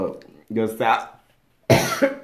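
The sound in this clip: Coughing and sputtering from someone who choked on a sour drink: a few harsh, voiced bursts in two groups separated by a short silence.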